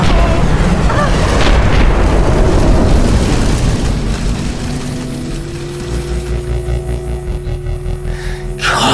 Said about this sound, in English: Something's coming down. It's going to crash.